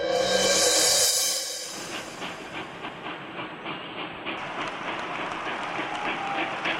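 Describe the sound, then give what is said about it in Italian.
A train runs between Rome and Napoli in 1863. A loud hiss of steam comes first, then the rhythmic clickety-clack of wheels on rail joints, steady and regular under a constant rumble. “1863, si viaggia in treno tra Roma e Napoli.”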